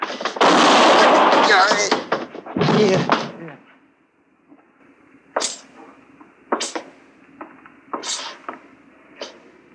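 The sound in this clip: Gunshots ring out in a Western radio drama gunfight: a voice speaks first, then after a pause several sharp, separate cracks follow at uneven intervals.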